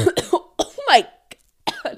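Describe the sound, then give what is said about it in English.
Several sudden, sharp coughs burst out in quick succession with short gaps between them, loud and dry, followed by a brief pause and a couple more hacking bursts. “that cough was unsolicited as fuck. I did not feel that coming.”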